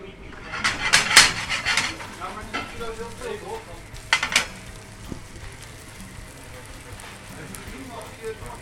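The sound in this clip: Bacon sizzles and crackles in a frying pan: a steady, bright spitting hiss throughout, with a few sharper clinks and scrapes of a utensil against the pan near the start and again midway.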